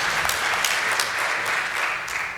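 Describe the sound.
A crowd applauds at the end of a session, many hands clapping in a thick, continuous patter that stays loud and even before easing off slightly at the end.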